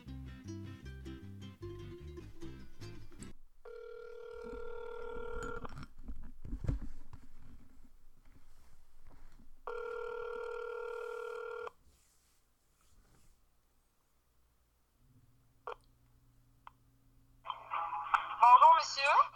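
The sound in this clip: Telephone dialing tones are followed by two long ringback tones with a pause between, as a brother phones his sister. A quiet gap follows, then a brief burst of voice at the end.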